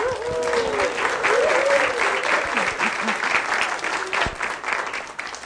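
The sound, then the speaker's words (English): Congregation applauding to welcome a woman speaker, loud sustained clapping from many hands with some vocal cheering heard over it early on, continuing strongly to the end. “So would you please welcome Sister Ruth Ferris.”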